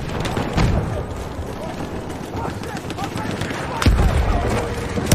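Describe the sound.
Grenades and gunfire in the video game Battlefield 1: two heavy booms stand out from a dense, rattling mix of shots and impacts, with speech running underneath.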